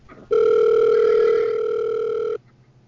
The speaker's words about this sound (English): Your call is connecting.